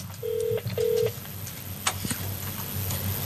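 Telephone dialing for the next call on a phone-in show: two short, faint beeps in quick succession, then a few soft clicks over a steady low hum.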